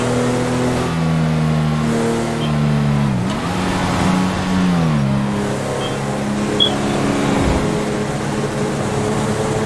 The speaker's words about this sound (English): Or my charger, either one works. Well, speed enforcement uses chargers, which is this vehicle. Also, this vehicle is cool because it accelerates really fast.